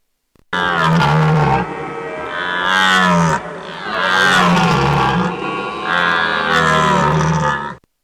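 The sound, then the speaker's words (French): A wild boar grunts in a few long, loud, harsh calls with a rough, voiced tone. The calls run close together with short gaps and are heard alone. “Écoutez, même le sanglier.”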